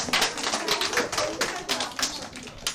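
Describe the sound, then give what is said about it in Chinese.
Applause in a classroom for a group of students, a quick, uneven patter of many hands clapping at moderate loudness, steady from start to end. “好，掌声。”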